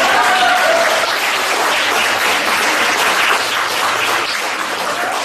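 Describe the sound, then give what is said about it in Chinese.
An audience bursts into applause, a dense, loud, sustained clapping that holds steady for several seconds with only slight fading near the end. “对鼓掌”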